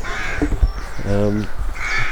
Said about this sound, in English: So this is the cries of rooks, which I don't think we've had on the podcast before.